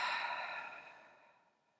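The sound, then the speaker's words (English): A deep exhale during a guided breathing exercise: one long, soft breathy rush that starts strong and fades steadily over nearly two seconds, heard alone without talk. “Really pull in all that good oxygen and exhale.”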